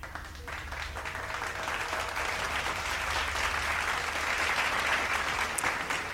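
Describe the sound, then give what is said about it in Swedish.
Applause from a studio audience at a bingo lottery game show, a dense, steady patter of many hands that swells slightly and holds without a break, with no voices over it. “en applåd till.”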